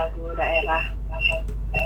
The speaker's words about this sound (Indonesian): Ini sepertinya ada yang nelpon tapi tidak diangkat ya.